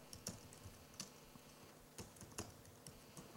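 Keystrokes on a computer keyboard as text is entered into an editor, a few faint, irregularly spaced clicks over a quiet background.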